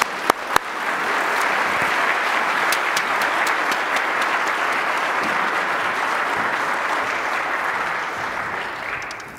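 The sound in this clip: A church audience applauds to welcome a guest speaker at a Sunday morning service: a few sharp early claps swell into steady, dense clapping that holds evenly for about nine seconds before trailing off at the end.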